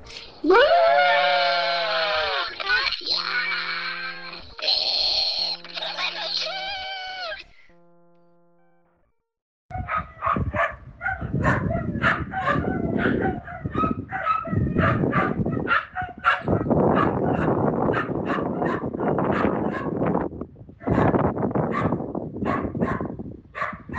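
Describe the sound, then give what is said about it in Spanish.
Dogs bark and howl, starting with drawn-out tonal cries. After a brief silence comes a long, loud, dense stretch of many overlapping barks. “no fueron muchos perritos hoy, porque se ve que están durmiendo la siesta”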